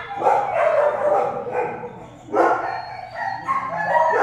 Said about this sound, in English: And it was just the most annoying record in the world of just dogs howling.